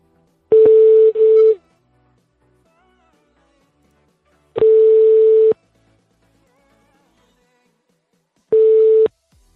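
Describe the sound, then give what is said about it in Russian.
Telephone ringback tones sound while an outgoing call is dialed and waits to connect. Three long, steady single-pitch beeps come at regular intervals with silence between them, each starting with a sharp click. “звоним по твоему номеру. Ваш разговор будет записан.”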